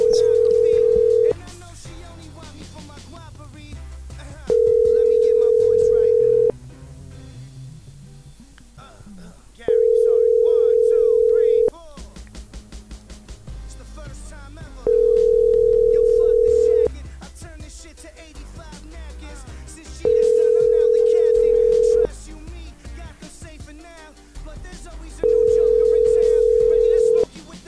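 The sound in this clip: During a prank phone call, a telephone ringing tone sounds on the line six times. Each steady, mid-pitched buzz lasts about two seconds, and people talk in the gaps between the rings.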